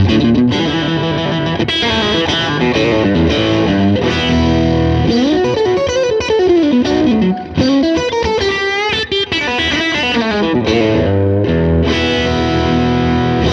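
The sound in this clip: Stratocaster electric guitar run through a Duelist overdrive pedal, playing a long, continuous lead line. The tone is thick, saturated and sustained, with bent, wavering notes and fast runs over steady distortion.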